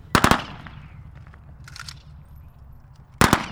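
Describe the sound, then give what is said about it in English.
Rifle volleys of a 21-gun salute fired by an Army honor guard at a ceremony honoring Vietnam veterans: two loud, sharp bursts, each a ragged cluster of cracks, separated by a few seconds of quiet ringing. “Then, an Army Honor Guard offers a 21 gun salute,”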